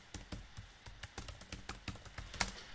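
Quick, light clicks of a computer keyboard as a chat message is typed, a steady run of many soft, uneven taps at low volume with no speech.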